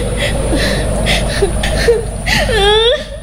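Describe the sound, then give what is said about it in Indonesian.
A person crying again during an emotional conversation, the sound building into wavering, high-pitched whimpering sobs near the end over a low steady background hum. “Loh, kok malah nangis lagi?”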